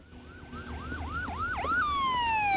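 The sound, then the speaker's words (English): Police car siren passing by, a run of rapid rising-and-falling wails that grows louder, then switches to a steady tone that drops in pitch and slides lower as the car goes past. “He tries to keep a low profile as a police car drives past, but the cops brake suddenly and spin round to face him.”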